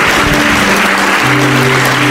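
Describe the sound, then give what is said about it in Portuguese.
A church audience applauds with loud, dense, sustained clapping, while steady low musical tones hold underneath. “E vamos aplaudir o Senhor Jesus por cada vida que está chegando.”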